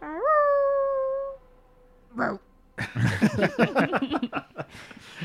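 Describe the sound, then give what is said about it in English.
A voice imitates a wolf attacking a demon in a tabletop role-playing game. It opens with a loud, drawn-out howl-like cry that rises and then holds steady, followed by a short gruff burst and a run of quick, rough voiced noises. “he's a wolf, so he is going to go,”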